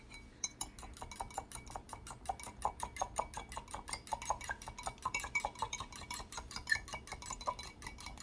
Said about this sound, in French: Je bats les œufs avec une fourchette.